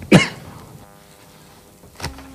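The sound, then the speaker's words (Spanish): Coughing after eating an almond: one sharp, loud cough at the start, then near-silence with a faint low hum, then a second, smaller cough near the end. “Fernando Simón, que tuvo otro momento en este caso de tos, la culpa la tuvo una almendra”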